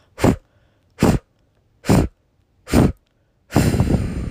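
Forceful blown exhales during a breathing exercise: four short, strong breath bursts about one second apart, then a longer, sustained exhale at the end, with no talk.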